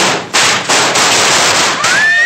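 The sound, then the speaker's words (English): Firecrackers go off in a dense, loud run of crackling bursts during trick-or-treating, a few sharper surges breaking the continuous popping, with a thin rising whistle near the end. “when those firecrackers went off, they nearly frightened my poor broom right out of the story”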